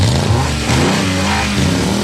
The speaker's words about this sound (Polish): Silniki już ryczą ze szczęścia.